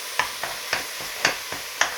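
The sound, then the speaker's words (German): Cabbage is stirred as it roasts in a hot pan. Six short scraping strokes come at an uneven rhythm over a faint, continuous sizzle, quiet and with no voices. “So, schön umrühren immer, damit es wirklich von allen Seiten sich schön rösten kann.”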